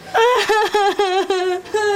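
A person crying in loud, wavering sobs: a rhythmic run of short, tonal, moaning bursts with brief catches between them, one after another with no pause.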